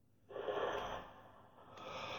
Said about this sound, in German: Dieses verstärkte Ein- und Ausatmen. Fülle deine Lunge mit Sauerstoff.